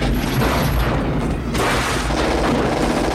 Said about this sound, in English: It catches fire easily with explosives.